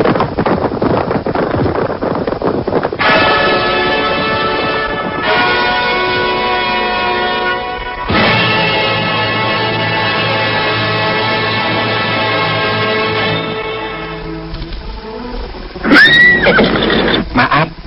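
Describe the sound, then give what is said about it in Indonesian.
Horses neighing as they are ridden: a few long, loud whinnies with steady, ringing tones, followed by a shorter, wavering neigh near the end. “Mereka berkuda menuju ke rumah kediaman Arya Kamandanu.”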